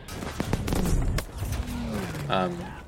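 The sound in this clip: Sniper gunshots in a video game: a few sharp, crisp cracks within the first second and a half, followed by a voice talking over the game sounds.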